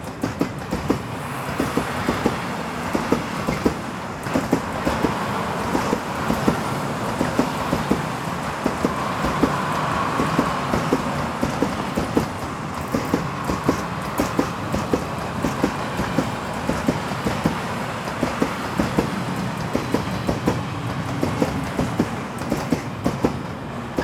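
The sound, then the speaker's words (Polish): Railway station ambience with trains: a steady rolling rumble with many sharp clicking rail knocks throughout and no voices standing out. “Zebrałem jednak trochę dźwięków, które pomagają wczuć się w dworcowy klimat bez wychodzenia z domu.”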